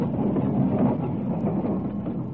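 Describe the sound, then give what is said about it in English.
A number 42 tram passing with a loud, continuous low rumble and roll that stays steady throughout, with no clear wheel clicks. “it's a number 42. There'll be another tram in a minute or two.”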